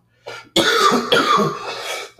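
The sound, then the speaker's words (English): Dry coughs from someone recovering from a cough, now with little phlegm: a few harsh, rough bursts, a short lighter one first, then louder hacking coughs in a quick sequence with no talking. “the coughs are getting drier, which means that there's like a lot less phlegm”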